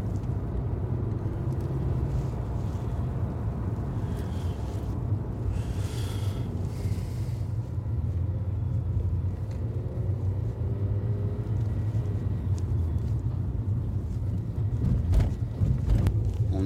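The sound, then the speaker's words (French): Steady engine and road rumble inside a car accelerating on the 104 motorway in France, a low droning hum with some wind noise, swelling slightly louder near the end; no one talks. “On est parti sur l'autoroute. Là, j'accélère pour le retrouver.”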